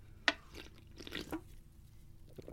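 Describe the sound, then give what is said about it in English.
A can of Pepsi cracks open with one sharp, bright pop, followed by soft fizzing and faint liquid trickles, all quiet and without talk. “Hear that? Yes, that is the sound of a can of Pepsi, which is my beverage du jour.”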